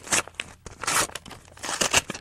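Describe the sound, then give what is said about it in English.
A stack of credit card offer envelopes is torn open, giving several sharp bursts of ripping and crinkling paper of uneven length and loudness, separated by short quiet gaps. “For about 2 months now, I've been saving all my credit card offers. The other day, for dramatic effect, I opened them all up at once.”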